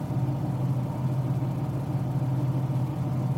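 A car engine's steady low drone while driving on a four-hour road trip, a constant rumbling hum at an even level with no talking over it.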